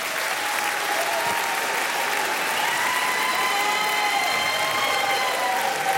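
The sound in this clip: Applause from a studio audience: dense, continuous clapping that stays evenly loud from start to finish.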